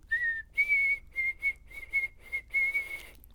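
A person whistles an imitation of a sparrow's song. One slightly lower held note is followed by a series of higher, steady notes at the same pitch. The final note is the longest, and the whistling is clear and alone.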